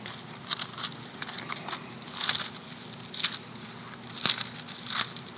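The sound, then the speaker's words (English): Pages of a Bible are flipped, giving a few quiet, crisp papery rustles and crinkles in uneven bursts, with soft background noise between them. “Usually I write all these down so I don't have to flip through my Bible to find them.”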